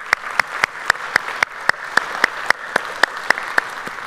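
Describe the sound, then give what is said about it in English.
A church audience claps to welcome a visiting campus, in a steady rhythmic beat of many sharp claps falling together in unison at an even pace. “So if you would, put your hands together and welcome them.”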